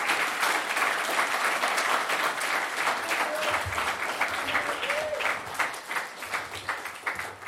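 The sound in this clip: Audience applause at a Hare Krishna gathering, a fairly quiet, continuous patter of many hands clapping at an even pace for the whole stretch.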